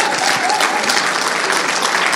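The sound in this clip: Audience applause welcoming a morning speaker at a Summer in the Psalms talk: steady, dense clapping that holds at an even level throughout, with no voices over it.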